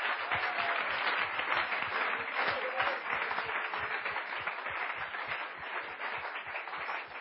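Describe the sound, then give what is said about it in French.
An audience claps for Jesus during a church service, with sustained, dense clapping and a regular rhythmic pulse underneath that lasts the whole seven seconds and eases slightly toward the end. “Clap for Jesus. Acclamons Jésus.”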